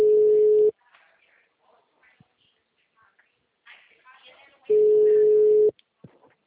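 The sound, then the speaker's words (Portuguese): Telephone tone after a dropped call: two steady, loud, low electronic beeps, a short one at the start and a longer one about a second long later, with faint scattered noise in the quiet gap between. “caiu a ligação”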